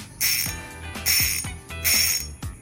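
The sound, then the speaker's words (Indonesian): Drag clicking from a fishing reel with an aluminium handle, 5+1 ball bearings, a brass pinion gear and 8 kg maximum drag: three long bursts of rapid, bright metallic ratcheting, then a shorter fourth burst, with no talk. “Dan ini bunyi drag untuk reel ni.”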